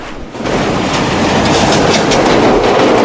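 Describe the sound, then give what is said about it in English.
An adjacent train hurtles past, a loud, rushing roar with rhythmic wheel clatter. It starts suddenly after a brief quieter moment and stays loud to the end. “He crouches on the roof and watches as the adjacent train hurtles past.”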